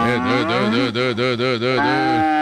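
A cow moos while being milked: one sustained, throaty bellow lasting about two seconds, loud and rich, with a rapid pulsing waver through it before it cuts off.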